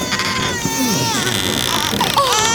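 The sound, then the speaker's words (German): A newborn baby boy cries in wavering, high-pitched wails that rise and fall continuously throughout, at a fairly loud, steady level. “Oh, weint da nicht ein Kind? Ja, ein Kind.”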